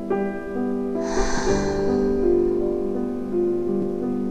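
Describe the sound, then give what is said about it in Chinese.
A single audible breath taken during a guided relaxation exercise, brief and airy over soft, steady sustained tones. “第一次，深深的吸气，缓缓的吐气。”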